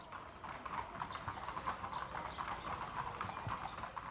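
Hooves of a mare ridden in racehorse training beat in a quick, steady, rhythmic clip-clop, many even strikes running throughout at a fairly faint level.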